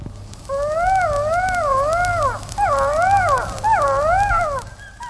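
Wolves howling as parents call to their pups: three long, wavering howls that rise and fall in pitch, each with a brief break between, loud and clear with no talk.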